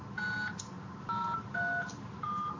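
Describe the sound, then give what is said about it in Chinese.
Four touch-tone beeps ring out as a mobile phone number is dialed on a telephone keypad. The short, even tones come in an irregular rhythm with brief gaps, fairly faint over a low background hum. “他拨呢，他那儿记。”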